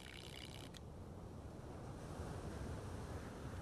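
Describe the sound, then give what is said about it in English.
Ocean waves roll as a steady, faint wash of surf with a windy hiss. The sound is continuous and even, with no distinct crashing crests. “I gazed out upon the swelling blue ocean”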